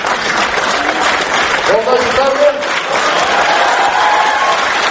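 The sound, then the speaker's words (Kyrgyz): Many students applaud loudly at a forum, reacting to a statement by the city's mayor: a dense, continuous wash of clapping that stays strong throughout. A voice rises briefly above the applause near the middle. “Шаар башчысынын мындай билдирүүсүн көп сандагы студенттер катуу кол чабуулар менен кабылдаса”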